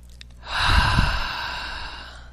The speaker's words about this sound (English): Nice deep breath.